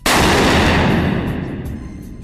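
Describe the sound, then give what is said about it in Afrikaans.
.50 caliber rifle gunshot: one loud, sharp blast with a long rumbling decay that slowly fades over about two seconds. “Ons het nou met die 50 cal geskiet, die groot verrassing. Dis die grootste geweer wat ek in my lewe nog ooit gesien het.”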